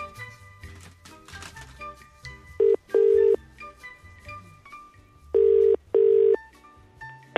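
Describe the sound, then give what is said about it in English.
A telephone is dialled to call a listener: a quick run of keypad beeps, then loud ringback tones in two paired rings, all over a soft background bed. “when I read this email, I thought, well, we need to call him, don't we?”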